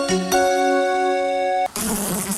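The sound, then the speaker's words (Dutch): Flies and mosquitoes buzz indoors with a thin, steady, high-pitched whine that holds for under two seconds before it is cut off by a short burst of hissing noise. “Niet zo leuk, hè? Muggen en vliegen binnen.”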